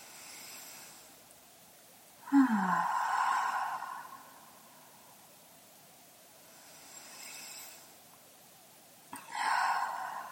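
Deep breaths in through the nose and out through the mouth during a guided group breathing exercise. Two cycles are heard, each a faint, quiet inhale followed by a louder, breathy sighing exhale, with no talk.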